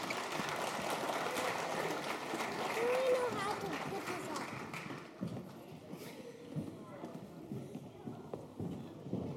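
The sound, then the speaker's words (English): An audience applauds the kids at the close of a show. Dense, steady clapping runs for several seconds, then thins to scattered claps as voices talk over it. “Give the kids a hand.”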